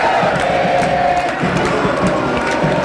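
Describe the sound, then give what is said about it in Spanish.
Loud roar of a Mexican football crowd celebrating a goal, sustained cheering and shouting from many voices at an even, heavy level throughout. “Salazar, tanta insistencia, tanto dominio, así festeja el público mexicano.”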